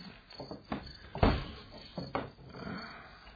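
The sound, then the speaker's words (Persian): A door being shut, giving a few dull wooden knocks and scrapes with one heavier thud near the middle, fairly quiet, with no voices. “ببند در را.”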